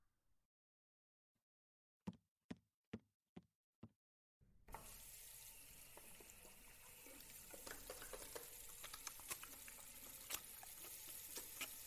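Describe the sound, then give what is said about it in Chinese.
Running tap water as someone washes their hands at a sink: a steady hissing, splashing stream that starts abruptly and continues to the end, preceded by a few sharp, faint clicks in near silence. “那我先洗手吧”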